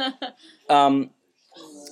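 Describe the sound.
A young child babbling, a few short voiced syllables followed by a longer sustained vocal sound and softer murmuring.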